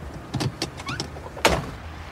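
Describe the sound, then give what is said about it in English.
A door is shut with one sharp, loud thump near the end, after a few softer knocks and rustles, with no voices. “Shut that door.”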